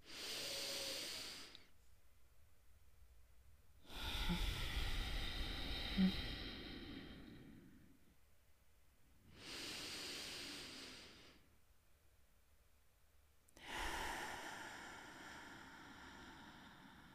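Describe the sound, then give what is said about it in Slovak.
Deep, slow breathing as a relaxation exercise: four long, airy breaths, each lasting a few seconds, separated by quiet pauses, with an even, unhurried rhythm. “Môžete hlboko a pomaly dýchať. Urobme to hneď.”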